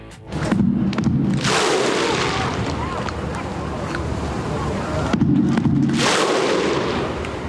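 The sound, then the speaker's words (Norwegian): Thousands of Icelanders welcoming home their national football team with the Viking thunderclap chant of drums, overhead claps and shouted 'ho'. Two huge unison surges of clapping and shouting break out, with loud crowd roar sustained between them. “Og vi kan jo høre hvordan det hørtes ut når flere tusen islendinger hadde samlet seg for å ønske landslaget velkommen hjem.”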